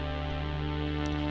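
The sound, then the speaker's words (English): Synthesizer ensemble section playing its first string sound, a steady, sustained chord with a smooth, shimmering texture, held evenly and moderately quiet throughout. “And the most important part of this synthesizer is the ensemble section, which has the strings in it, and they sound like this. This is the first string.”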